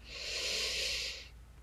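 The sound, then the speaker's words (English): A deep, slow inhale through the nose during a guided breathing exercise, heard alone as a soft, steady, airy hiss lasting about a second before trailing off. “And I invite you to take an inhale in through the nose.”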